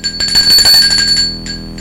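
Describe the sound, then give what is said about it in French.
A doorbell rings at the front door with a bright, high metallic ring that sustains for about a second and fades, then sounds briefly once more. “en regardant un film, l'on sonne à la porte d'entrée.”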